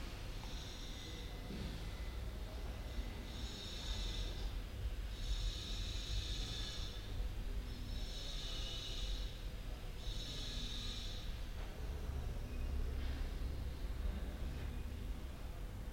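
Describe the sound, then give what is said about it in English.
Slow, deep breaths during a guided relaxation exercise: soft, airy hisses swell and fade in a steady series over a low background hum. “We can all take a few slow deep breaths.”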